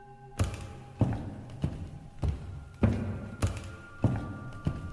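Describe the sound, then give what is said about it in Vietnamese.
Footsteps with a dry clattering knock as a woman walks slowly toward a wardrobe at night, heard as an even, steady series of hollow thuds and taps, moderately loud, with no voices. “Tiếng lộc cộc lẫn trong tiếng bước chân của cô vang lên khô khốc trong đêm.”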